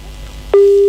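A telephone busy tone after a phone-in call is cut off: a loud, steady mid-pitched tone begins abruptly about halfway through, following quiet low background noise.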